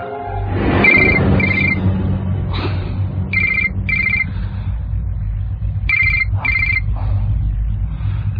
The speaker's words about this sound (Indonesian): aku dikagetkan oleh suara handphoneku yang berdering